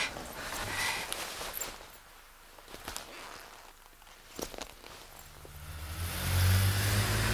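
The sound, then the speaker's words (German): A silver Mercedes car speeds up and arrives, its engine faint and uneven at first, then swelling into a louder, deeper roar toward the end. “Da kommt der silberne Mercedes angebraust.”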